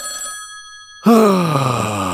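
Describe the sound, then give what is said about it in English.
A telephone rings with one steady electronic tone burst lasting about a second. A louder groaning voice then cuts in and slides downward in pitch. “The phone is ringing. The request line. All right, let's pick it up.”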